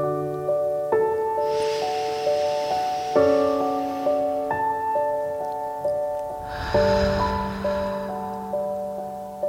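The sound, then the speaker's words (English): Slow, deep breathing in through the nose and out through the mouth, heard as two soft, airy swells of breath over gentle, sustained musical notes. “breathe that in deeply through your nose and out your mouth.”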